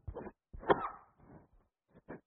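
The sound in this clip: A sharp, noisy sneeze bursts out during a spoken lecture, set among a few shorter breathy sounds before and after it, moderately loud against an otherwise quiet background.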